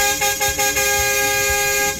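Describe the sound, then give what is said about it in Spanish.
A car horn sounds in one loud, sustained, blaring tone that holds steady throughout, with a regular low thump repeating underneath. “O sea, usted le está tocando el pito a DJ Marvin, ¿es así?”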